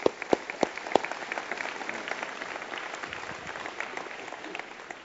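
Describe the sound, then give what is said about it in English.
Audience applause for a speaker leaving the stage, opening with a few sharp distinct claps before settling into a steady, moderately loud patter of many hands. “let's give him a hand as he leaves”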